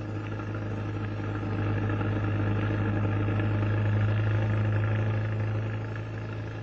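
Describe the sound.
Steady low engine drone of a taxi cab driving through city streets, a continuous hum that swells slightly in the middle, with no talk over it.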